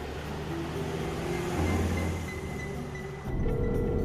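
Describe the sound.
A van driving away gives a steady, broad engine rumble with a low droning hum. The level holds fairly even throughout and swells slightly near the end.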